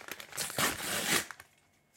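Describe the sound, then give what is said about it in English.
Packaging of a Titan security key being torn open: a fairly faint burst of crinkly tearing and rustling, loudest in the middle, with a few small rustles before it and a quiet trailing end. “All right, we're gonna tear open. Tear it open.”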